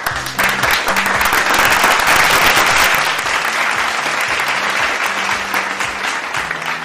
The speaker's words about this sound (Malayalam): ഉണ്ടോ, ഇത്രയും വലിയ കൈയടി നിങ്ങൾക്ക് എവിടെ കിട്ടും?